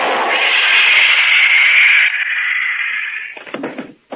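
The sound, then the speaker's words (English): A stun gun blast, a loud, harsh, sustained electric hiss lasting about three seconds that weakens and breaks into a few rough crackles before cutting off. “That stun gun blast ought to keep him on ice for a couple of hours.”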